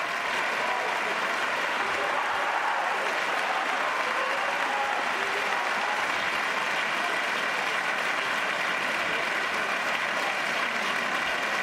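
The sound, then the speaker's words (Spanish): A standing audience at the Princess of Girona awards ceremony cheers and applauds the king and royal family, a dense, unbroken roar of clapping mixed with shouts that holds steady throughout. “Ha habido vítores en estos momentos, el público en pie, dando vivas al rey y a la familia real.”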